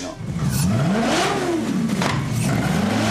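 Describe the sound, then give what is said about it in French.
A Maserati GranTurismo S 4.7-litre 470-horsepower V8, fitted to a custom four-wheel-drive motorcycle, revs loudly and steadily, its pitch climbing, easing off and climbing again. “je voulais avoir le bruit, le son du V8, en tout cas, et un moteur italien. Du coup, je suis parti sur un V8 Maserati Gran Turismo S, 4 litres 7, 470 chevaux.”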